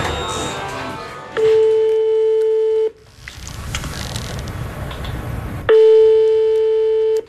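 Two long, steady telephone ringing tones sound as a hospital transplant coordinator in Liège places a call to a patient about a possible organ graft, separated by a stretch of hiss.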